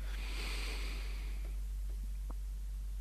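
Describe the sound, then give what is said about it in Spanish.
Deep breathing through an opened diaphragm: a long, airy inhalation lasting about a second and a half, faint and steady, followed by quieter breath sounds with no talk. “un ejemplo de práctica es respirar abriendo el diafragma”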